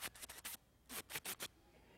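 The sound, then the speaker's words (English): A man imitates a squirrel cutting acorns with his voice: faint, raspy scratching bursts in two quick groups of four, separated by a brief pause. “you're going to hear a squirrel cutting, and you need to ask him to do this. And I was like, can you describe to me what that sounds like? And he's like, when a squirrel cuts, it sounds like...”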